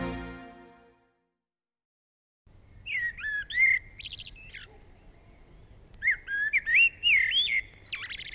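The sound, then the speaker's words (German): Blackbird song: two phrases of fluty, warbling whistles, each ending in higher, thinner twitters, with a short pause between them over a low, steady background hum. “Das ist eine Amsel.”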